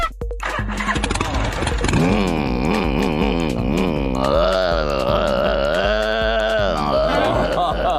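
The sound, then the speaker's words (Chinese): A human voice imitates a Harley motorcycle engine with a continuous throaty rumble that wavers and pulses in pitch for several seconds, like a revving idle. “还有就模仿那个哈利摩托哦， 摩托。”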